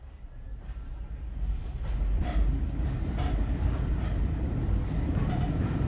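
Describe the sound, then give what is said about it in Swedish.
A northbound passenger train departs Malmö central station as a low, steady rumble that swells slightly in the first seconds, with faint rhythmic rail clacks over the continuous noise and no voices. “Klockan 18.00 avgår från Malmö centralstation varje kväll ett norrgående persontåg.”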